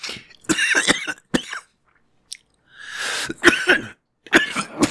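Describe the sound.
Fits of coughing and choking from someone trying to talk, inhale and swallow at once: several harsh, sputtering coughing bursts, split by a short silent gap, with a strained wheeze between them.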